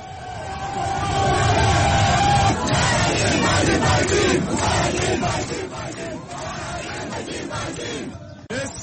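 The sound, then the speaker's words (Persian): A loud, sustained roar of protesters shouting and crying out together at a street demonstration near army headquarters in Khartoum, Sudan. The dense crowd noise holds steady throughout, easing slightly toward the end. “هزاران تن دیروز برای دومین روز پیهم در نزدیک فرماندهی اردو در خرطوم پایتخت سودان دست به تظاهرات”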